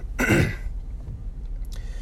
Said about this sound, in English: something's caught in my throat, making me cough.